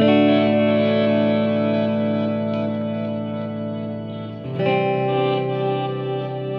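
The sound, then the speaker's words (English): A guitar chord played through shimmer delay and HD Hall reverb rings out as a long, bright, shimmering wash that slowly thins, then is struck again near the end and swells back up. “It's like a shimmer delay. HD Hall reverb.”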